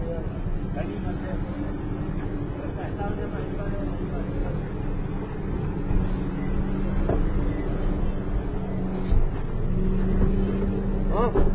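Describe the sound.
A motorcycle engine runs outside with a low, steady droning hum, and people talk over it.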